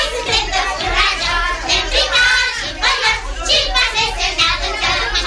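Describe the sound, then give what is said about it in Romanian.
Children playing and shouting in a neighbourhood: many young voices call out at once in a continuous, excited clamour that rises and dips without pause. “Copiii din cartierul Gări.”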